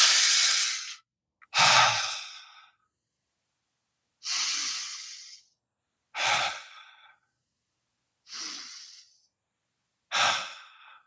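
Three slow, deep breaths taken together as a group exercise, each a long airy inhale followed by a longer sighing exhale, with pauses of silence between them and no talk.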